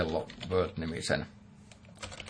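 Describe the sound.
Typing code on a computer keyboard in a text editor: quick, light key clicks that follow a voice speaking at the start.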